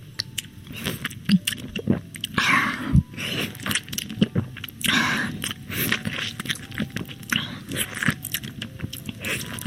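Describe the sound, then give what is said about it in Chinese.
Wet, squishy chewing and biting on pieces of sweet orange, repeated many times in an uneven rhythm with soft crunches and juicy squelches, with no talk. “再吃一块甜甜的橙子。”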